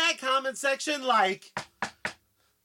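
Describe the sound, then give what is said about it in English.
Knocking on a door: three sharp, evenly spaced knocks ring out right after a voice speaks. “I don't like the sound of them knocks”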